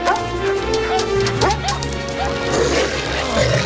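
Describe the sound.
Terrier and borzoi dogs barking and yipping, many sharp barks tumbling over one another with brief whimpers mixed in, loud and busy throughout.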